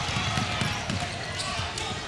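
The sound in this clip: A basketball is dribbled on a court during a Bad Axe Hatchets game, its repeated bounces thumping in a steady rhythm beneath a voice talking and the murmur of the crowd.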